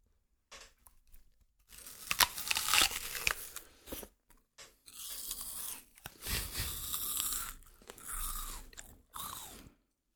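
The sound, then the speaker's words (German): Crisp biting and chewing of a Cosmic Crunch snack, recorded as ASMR: many crackling crunch bursts in irregular clusters with brief gaps between them, fairly loud and with no voices. “Der war gar nicht so crunchy. Hast du mich angelogen, dass der Cosmic Crunch ist?”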